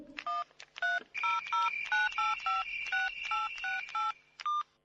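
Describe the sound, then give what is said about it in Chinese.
Mobile phone dialing tones: a quick run of many short, clear, high-pitched keypad beeps in an uneven rhythm, played alone with no talk. “于是我就掏出了手机想打给张雅欣再确定一下。”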